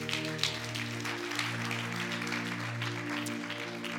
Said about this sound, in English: If you would give Lacey a big hand today.